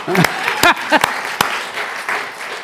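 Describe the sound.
Audience applause at a church gathering for a man who has just finished speaking, a scattered run of claps at moderate volume with a few short voices calling out over it.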